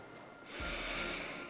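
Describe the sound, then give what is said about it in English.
A deep, deliberate breath, heard as one long airy rush that starts after a brief quiet and holds steady to the end, with no talking. “I am going to ask you to take a deep, intentional breath.”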